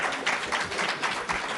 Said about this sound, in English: It's so rare that you ever get an applause in one of these things. I think probably now's the time.